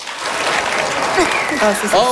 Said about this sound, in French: Alors, par applaudissement, qui aimerait ici pouvoir hiberner de septembre à juin?